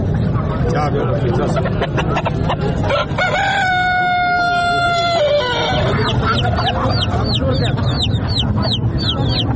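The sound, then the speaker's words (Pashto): Domestic chickens and other birds at the weekly Friday bazaar in Tarinkot, clucking throughout under a constant murmur of people talking. A long rooster crow sounds midway, and a rapid run of high chirps follows near the end. “د کورنۍ چرګانو، کلیوالو او وحشي مرغانو د ژغونه په ترینکوټ ښار کې له جمعه بازار یا ګنج څخه پورته کیږي”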